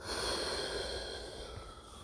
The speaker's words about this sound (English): So let's take a deep breath in. Breathe it in. Breathe it out.